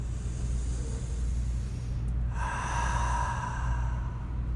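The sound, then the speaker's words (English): A deep breath drawn in through the nose and let out through the mouth during a guided relaxation, heard as a soft, steady airy hiss that swells slightly partway through, with no talking. “Together, we can take one more of those deep breaths in the nose, out the mouth.”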